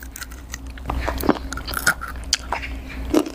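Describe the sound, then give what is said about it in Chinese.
Crunchy bites and chewing into a spinach-and-vegetable fried dough snack come as an irregular run of sharp crackles and crisp snaps, fairly loud, with no talking. “不知道水果蔬菜炒旗的结果会怎样。 能吃到菠菜的味道。 我尝一下。”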